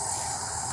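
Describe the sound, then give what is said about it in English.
Steady, loud hiss of a cannabis concentrate dab vaporizing, one continuous, even rush of noise with no breaks or changes across the brief moment. “What is that sound? It's the sound of my dabs evaporating,”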